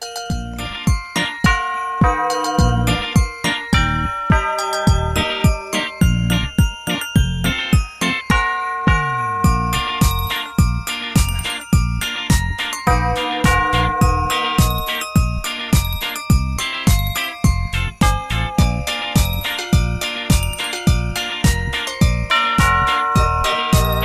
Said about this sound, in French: on vient de secouer les cloches du Père Noël.